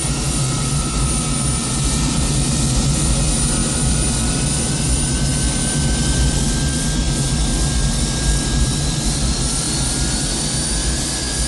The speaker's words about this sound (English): Daytime, at a KLM 747 taxis to a terminal.